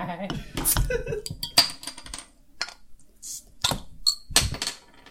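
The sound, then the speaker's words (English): Sharp clinks and clatter of glass and metal as beer is opened, with 22-ounce bottles being shared and poured; several uneven knocks and rattles, a few of them bright, ringing pings. “there's nothing else to do but crack open some brew”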